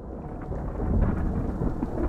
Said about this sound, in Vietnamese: Trời bỗng tối sầm, nổi sấm đùng đùng, mây đen kéo đến.